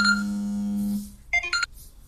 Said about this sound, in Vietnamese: xin lỗi các bạn thì có điện thoại